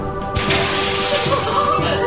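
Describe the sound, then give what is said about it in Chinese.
A crystal chandelier hanging over an opera house auditorium falls and shatters, a loud, dense crash of breaking glass that continues throughout. “悬挂在观众席上的水晶灯突然坠落”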